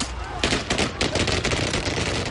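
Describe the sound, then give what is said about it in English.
Police gunfire at the Marikana massacre at a mine near Rustenburg: a rapid run of sharp, cracking shots in quick succession, fairly loud and steady across the whole stretch. “police shot and killed almost 40 demonstrators at a mine near the town of Rustenburg, while media recorded the incident.”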